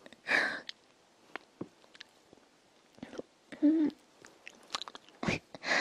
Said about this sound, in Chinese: 我要咬你。好吃。